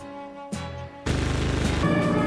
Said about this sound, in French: On nous tire dessus On nous tire dessus ah. Ils sont là-haut sur le toit